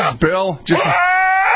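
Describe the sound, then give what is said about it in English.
A Nubian goat in heat bleats in loud, wavering, almost human-sounding cries, with two short cries followed by a longer, drawn-out one. “By the way, that is a Nubian goat in heat, for the record, okay?”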